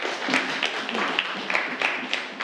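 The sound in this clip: Students in a classroom applauding a classmate's correct answer, a dense, continuous patter of many hands clapping at once.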